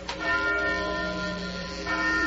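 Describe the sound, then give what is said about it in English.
A church bell rings in a belfry, sustaining a steady, humming metallic tone with layered overtones. A fresh strike swells near the end, with no voices present. “look up through that belfry. That bell's ringing. But there ain't nobody down here pulling the bell rope.”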